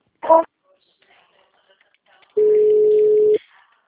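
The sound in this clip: A telephone line tone during a call transfer sounds as one steady, even beep lasting about a second. It comes after a short sound at the very start and a stretch of near-silence.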